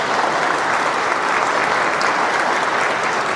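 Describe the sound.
Audience applause welcoming a speaker's sister and mother fills the whole stretch as a steady, even wash of many clapping hands, with no speech over it.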